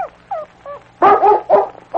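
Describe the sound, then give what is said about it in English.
A dog whines and yips softly at first, then breaks into a few loud, sharp barks with short pauses between them. “I didn't know Jimmy had a dog. He hasn't had him very long.”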